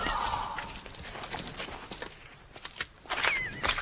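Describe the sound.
Soft footsteps of two masked figures sneaking out of bushes: quiet, uneven steps mixed with light rustling, a few sharper scuffs standing out near the end.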